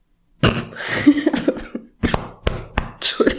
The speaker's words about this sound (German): Entschuldigung, ich habe mich gerade verschluckt, ich wollte was trinken, Mann.